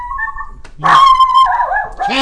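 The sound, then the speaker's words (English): A dog vocalizing with drawn-out, high, tonal whines and yelps: a short whine, then a longer, louder wavering cry, then another starting at the end, with no talk over it. “Where is she barking?”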